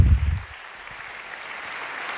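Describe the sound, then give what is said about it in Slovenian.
A full audience in the Union hall in Maribor applauds enthusiastically after a concert: a short louder burst at the start, then a steady, softer wash of many hands clapping. “Poslušalci v polni dvorani Union v Mariboru še navdušeno ploskajo, morda bomo dočakali še dodatek, počakajmo.”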